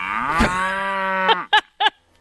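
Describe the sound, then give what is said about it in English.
A cow gives a long, steady, low moo that holds its pitch, followed by a few short, clipped lowing calls, then silence. “in Florida, they are studying cows and their burps to make sure that we're all safe from...”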